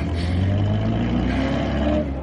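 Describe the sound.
A car engine nicknamed the bomb runs with a steady, loud low hum and slight revving that stays even throughout, with no talk.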